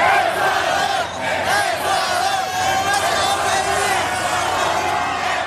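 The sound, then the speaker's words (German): Ecuador football fans in East Rutherford, near New York, celebrate their team's 2-1 win over Germany. A loud, continuous crowd shouts and chants together, and the roar barely dips from start to end. “So klang das in der Nacht in East Rutherford bei New York. Die Fans aus Ecuador haben dort den 2:1-Sieg ihrer Mannschaft gegen Deutschland ausgiebig gefeiert.”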